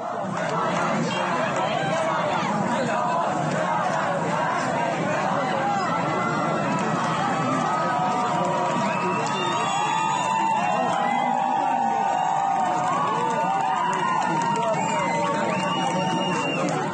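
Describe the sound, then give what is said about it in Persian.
Crowd of street protesters in the city of Birjand, Iran, raising a dense, unbroken roar of many voices, with shouts and chant-like tones rising out of the mass from about midway onward. “صدای اعتراضات مردمی در شهر بیرجند را بشنویم.”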